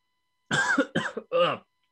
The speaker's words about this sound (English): Sorry, just choked on a podcast.